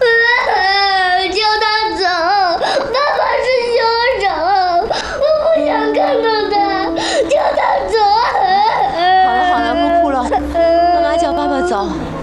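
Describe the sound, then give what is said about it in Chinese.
A child cries and sobs without a break, in wavering, high-pitched wails and whimpers that rise and fall loudly throughout. “你怎么哭了？”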